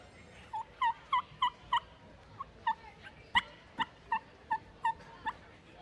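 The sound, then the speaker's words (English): Soft wild turkey hen tree yelps, made as an imitation of a hen waking on the roost: a long series of quiet, evenly spaced, nasal yelps, each short and slightly rising, repeated alone with no talk. “I'll tree yelp back and forth. And honestly, it's mimicking of the hens.”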